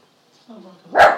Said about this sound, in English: What are you barking at him for? What's he barking at you for?